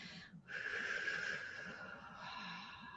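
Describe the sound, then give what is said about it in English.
A long, deep breath drawn in through the airway, a soft, airy hiss held steadily for about two and a half seconds with no talk over it. “Deep breath in.”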